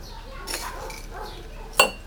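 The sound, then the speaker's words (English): Spoon clinking against coffee cups while coffee is spooned in: faint scraping and soft rattling, then one sharp, bright ringing clink near the end. “She spoons coffee into two cups.”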